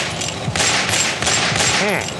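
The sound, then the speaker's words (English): Gunfire from police officers shooting, a loud, dense fusillade of rapid overlapping shots in continuous bursts. “Oh God, they're shooting me! My God, they're pumping me full of lead!”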